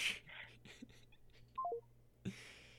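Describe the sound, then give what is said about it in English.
A phone's dropped-call tone: three short beeps stepping down in pitch, one after another, fairly faint against quiet background noise, with a brief thump shortly after. “My phone, killing it. as it does. Just dropped a call.”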